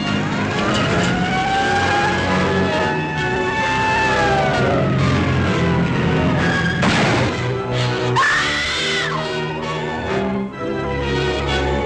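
Engines of several vehicles rev and roar as they close in, forming a loud, dense, continuous mass of sound with high wailing tones sweeping through it.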